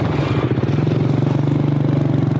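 A motorbike engine idles; the bike is used as a taxi in a refugee camp. It makes a steady low throbbing rumble with a fast, even pulse that holds level throughout.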